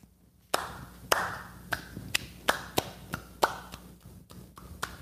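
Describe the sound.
Slow clapping: about nine sharp hand claps spaced roughly half a second apart, a steady deliberate rhythm with each crisp clap ringing briefly before the next, no voices.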